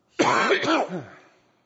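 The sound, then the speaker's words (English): A single harsh cough from a person reading scripture aloud, a gruff throat-clearing burst with a quick rasping onset that trails off in under a second. “Y'all pray this cough will go away.”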